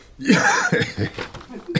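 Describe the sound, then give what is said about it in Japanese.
A person coughing and choking in a few rough, loud bursts, some with a hoarse, laugh-like voiced edge, with brief gaps between them. “むせてますね。”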